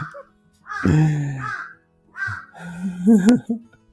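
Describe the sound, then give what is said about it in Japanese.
Crows cawing on a power line outside a window: a couple of harsh, nasal caws, with a person talking over and between them. “部屋の脇の窓のところにね、電線があって、そこでもう、カーカー言ってますね、今日はね。”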